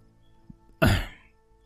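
A man clears his throat before addressing a gathering: one sharp, gravelly rasp that bursts out loudly and trails off over a fraction of a second, with only a faint tap before it.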